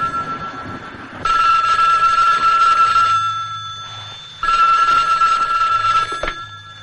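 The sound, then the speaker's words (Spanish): A telephone bell rings with an incoming call, waking someone in bed: two loud, long bursts of rapid ringing separated by a short pause, with no voices. “Paul despierta en su cama al recibir una llamada”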